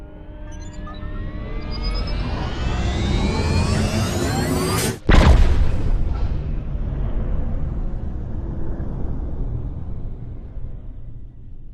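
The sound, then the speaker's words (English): The spore drive jump effect from Star Trek Discovery: a layered whine climbs steadily in pitch for about five seconds, cuts off abruptly, then bursts into a deep rumbling roar that slowly fades away. “Let's go to Black Alert, fire up the Spore Drive, and find out. Computer, let's fly.”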